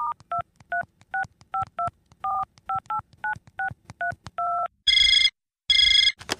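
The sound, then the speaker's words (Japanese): Telephone keypad tones beep in a quick string of short two-note presses as a number is dialed, followed by two loud bursts of ringing on the line. “まだ?藤原さんに電話するわ。”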